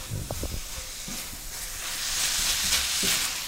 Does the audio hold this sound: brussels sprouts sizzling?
yes